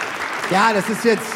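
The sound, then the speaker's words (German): Applause from an audience at Kapfenburg above Lauchheim in Baden-Württemberg, a steady bed of clapping under a person speaking. “das ist so ein Applaus, ihr beklatscht euch, warum auch nicht.”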